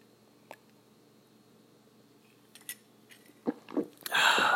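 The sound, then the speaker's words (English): A sip of homemade tea made with oil of oregano, honey, cinnamon and ginger: a few faint mouth clicks, then a louder, breathy slurping burst at the very end. “So at the 45-minute mark, I'm going to take a sip of some tea.”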